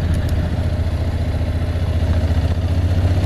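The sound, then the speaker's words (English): A 2019 Honda NC750X motorcycle engine pulling in third gear up a steep hill at about 20 mph, giving a loud, steady low throb with an even pulsing beat and no talk. “I'm just taking it easy. That's what it wants to do, and it feels right. I'm in third gear going up here.”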